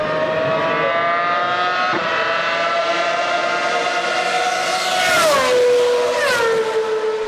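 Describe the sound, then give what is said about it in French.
Formula One race car engines scream on a rain-soaked, waterlogged track. The loud, high whine climbs steadily, then drops sharply at a gear change and settles lower. “La pluie n'a pas cessé de tomber toute la matinée et la piste est détrempée. Ayrton Senna se positionne 13e sur la grille, loin derrière le poleman Alain Prost. La course est lancée avec trois quarts d'heure de retard.”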